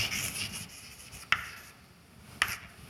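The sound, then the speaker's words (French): Writing during a physics lecture: two short, sharp marks or taps stand out clearly, with some faint scratching earlier, over a low background and no talk. “Je vais écrire ça comme ça.”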